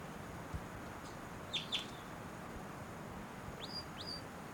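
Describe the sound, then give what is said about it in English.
Flight calls of a female wild bird come as short, high, thin notes in two brief pairs, one early and one near the end, faint over a steady low background hiss. “Wild bird, that might be the male in the back, but those flight calls were the female.”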